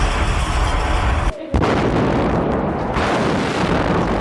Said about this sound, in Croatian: Uveliko se oko Sarajeva razmješta teška artiljerija. Zauzimaju prostor i općina na koje, kako su vjerovali Srbi, polažu pravo. Počinje opsada grada.